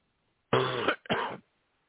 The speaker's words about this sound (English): Excuse me for that cough. I should have shut my mic off.